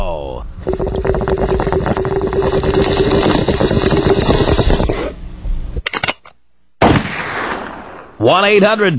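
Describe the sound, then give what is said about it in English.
Sound effects of a bong hit and a gunshot: a long, dense bubbling gurgle lasting several seconds, then a brief silence and abrupt, sharp, loud bursts. “Take me out with a bong hit and a gunshot.”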